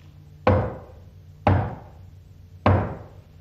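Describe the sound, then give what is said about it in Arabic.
Three loud knocks on a door, evenly spaced about a second apart. Each is a single sharp thud that fades quickly, with no voices. “وفجأة سمعوا طرقا على الباب.”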